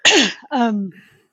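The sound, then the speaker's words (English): A short cough breaks out in two loud bursts. The first is harsher and noisier, and each trails into a voiced, falling tone before silence. “I'm sorry, I just got a cough.”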